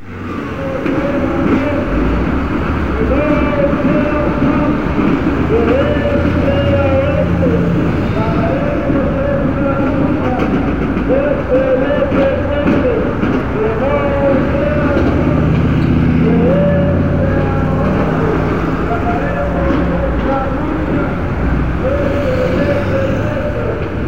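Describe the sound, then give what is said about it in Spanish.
Street march on Avenida Hidalgo in Mexico City's historic centre: a loud, dense, unbroken wash of crowd and street noise, with recurring tonal sounds rising above the low rumble. “Esto es el rumor de la selva de concreto. Marcha en Avenida Hidalgo, Centro Histórico, Distrito Federal.”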